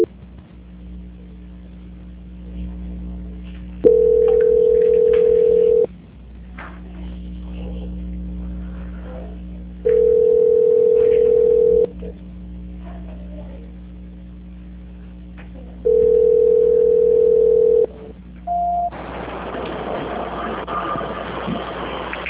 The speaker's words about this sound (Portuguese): Vou transferir agora a sua ligação, tudo bem?